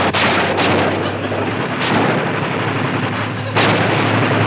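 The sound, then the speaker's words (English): Gunfire aimed at attacking tanks: a loud, dense barrage of shots and blasts roaring without pause, with a few sharper bursts standing out from the continuous din. “Commence firing!”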